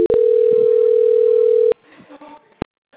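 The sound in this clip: A steady single-pitch telephone tone sounds while a call is being transferred, holding for about a second and a half before a click cuts it off. Faint murmurs and a second sharp click follow.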